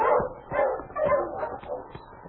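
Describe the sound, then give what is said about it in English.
A dog near a sled dog team on a trail, barking a few rough, mid-pitched barks and yips in a quick, irregular run, fairly loud with no voices over it. “Yeah, that is a dog.”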